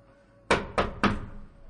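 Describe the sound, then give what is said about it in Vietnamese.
Three firm knocks on a study door, evenly spaced and clearly heard on their own, each a short, hollow thud that fades quickly. “gã thị vệ vội vàng chạy tới cửa thư phòng, cố ý để bước chân của mình to tiếng hơn trước khi gõ cửa.”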